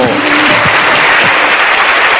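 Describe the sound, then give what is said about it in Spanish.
Steady, loud audience applause at an election gala greets the future festival queen, her ladies, king and knights, the dense clapping filling the whole stretch without a break. “aplausos para la futura reina, damas, rey y caballeros, esta próxima fiesta.”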